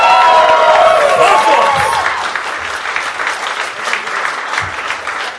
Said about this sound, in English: Make some noise for Tom.